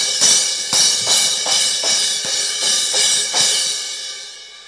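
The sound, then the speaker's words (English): A cymbal of the kind used in a worship band, struck loudly and harshly in a run of repeated crashes. Each bright, hissing wash is cut off by the next hit, and the final crash rings out and decays. “I have not a gong, but a cymbal. And whenever I'm playing, in a worship set, it can make a very nice sound, and it can, add accents to certain parts of the song.”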